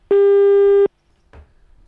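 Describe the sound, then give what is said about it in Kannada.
A telephone tone after a phone line was cut: one loud, steady electronic beep lasting under a second, then silence with a faint rustle. “ಬಹುಶಃ line cut ಆಯಿತು ಅಂತ ಕಾಣುತ್ತೆ.”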